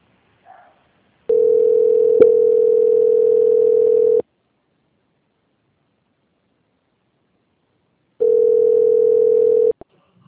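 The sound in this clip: Telephone line tone while a bank call is put on hold and transferred: two long, steady, mid-pitched beeps of several seconds each, separated by a stretch of silence, with no voices.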